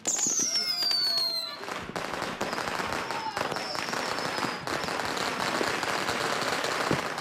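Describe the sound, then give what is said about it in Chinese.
Firecrackers being set off give a dense, continuous crackle of rapid pops and bangs, with a high whistling tone falling in pitch at the start. “孩子们，一会儿吃饱饭了之后啊，二叔带你们去放炮去，好不好？”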